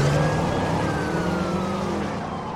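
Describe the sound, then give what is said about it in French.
A police car siren wails over a car engine during a chase after a driver forced a roadblock, a loud steady tone that slowly falls in pitch above a rumbling motor. “Il est aussitôt pris en chasse par la police.”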